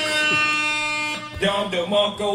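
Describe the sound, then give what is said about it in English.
A buzzer sound effect gives a steady, buzzy tone with strong harmonics that holds for just over a second and then cuts off. Talking follows straight after. “you get a buzzer for your comments”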